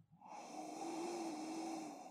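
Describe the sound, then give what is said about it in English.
A slow, deep breath in through the nose, with cupped palms rubbed with rose oil held over it: one long, faint nasal inhale with a thin whistling tone running through the airflow, and no talk. “You're going to cup your nose. Take some deep breaths in through the nose.”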